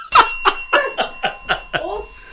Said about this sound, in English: Ring that bell!